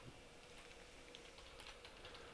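Faint typing on a computer keyboard as a search is entered: quick, light key clicks come in a loose patter with no voices.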